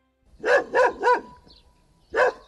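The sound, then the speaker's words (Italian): A dog barks outside a small wood-chip biomass plant: three quick barks, a short pause, then a fourth. The barks are clear and heard alone. “Unico rumore esterno è infatti questo abbaiare di un cane”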